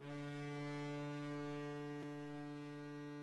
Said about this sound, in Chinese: 习近平在飞行甲板检阅舰艇仪仗队，随后检阅舰鸣笛起航，在护卫舰艇拱卫下向阅兵海域进发。